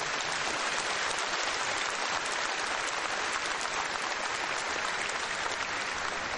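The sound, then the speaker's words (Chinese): Dense, steady applause from an audience at a Buddhist gathering honoring a senior monk, a continuous loud wash of many hands clapping without a break for the whole stretch. “我请大家跟我配合，不要鼓掌了”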